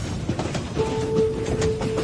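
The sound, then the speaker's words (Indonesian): A train slows to a crawl, giving a low, continuous rumble with soft clatter, and a thin, sustained squeal joins partway through. “Kulihat kereta ini menurunkan kecepatannya. Kini kereta berjalan sangat pelan.”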